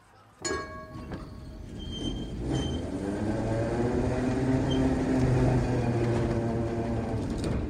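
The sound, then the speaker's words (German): An underground train in Berlin runs toward Stettiner Bahnhof. A sudden loud onset swells into a heavy, sustained rumble and roar, with whining tonal lines layered over the steady noise. “Ludwigs Abschiebung vom Polizeipräsidium am Alex mit der Untergrund nach dem Stettiner Bahnhof.”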